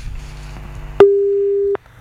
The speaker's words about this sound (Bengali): কোনো কারণে যোগাযোগ বিচ্ছিন্ন হয়ে গেছে।